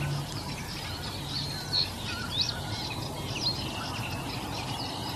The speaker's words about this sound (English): you can hear the sedge warbler singing now.